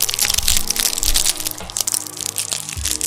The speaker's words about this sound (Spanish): Quiero que escuchen cómo lo voy abriendo poco a poco, con esta pequeña dificultad que tengo en los brazos.